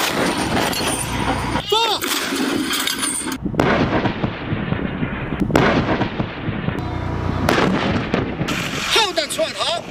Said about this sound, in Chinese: 近日组织开展火炮实弹射击考核